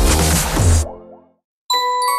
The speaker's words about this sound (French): Hé, hey, t'en reçois des messages, toi?